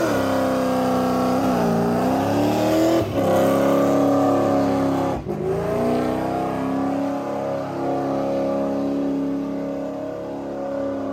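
Chevrolet C10 pickup truck engine revving hard during a tire-smoking burnout, a loud sustained roar whose pitch drops and climbs back several times before settling into a steady high drone.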